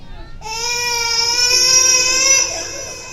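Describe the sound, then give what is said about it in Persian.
An infant cries in one long, sustained, high-pitched wail that lasts about two seconds and then breaks off, with faint low noise before it starts. “یه گریه میشنوی، اینطور ناله میزنی”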